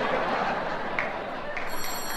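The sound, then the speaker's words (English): A telephone ringing, the Flak phone, its high, bright ringing tones emerging toward the end over a steady background hiss. “The Flak phone.”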